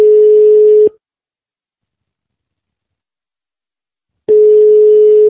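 Telephone ringback tone heard while a call is placed: two bursts of a steady mid-pitched tone, each about a second long, separated by a long silence and sounding alone.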